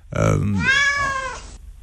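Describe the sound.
A kitten meowing: one drawn-out, high, wavering meow, with a voice heard at the start.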